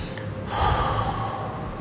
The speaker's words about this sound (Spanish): Y ahora toma una respiración profunda y exhala por la boca.